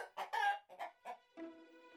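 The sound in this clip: A hen clucks after laying an egg: several short, throaty clucks in quick succession, then a longer, drawn-out harmonic call that holds steady to the end.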